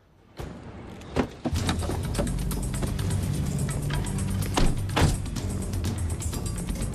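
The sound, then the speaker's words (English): Car doors as men get out of a car: a few sharp thuds near the start, then a steady low rumble with another knock or two midway. “Dresham's men get out of their car.”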